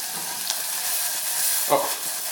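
Onion fries in a pan for a meatball mixture, giving a soft, steady sizzle and hiss, broken by a couple of brief clatters as it is stirred.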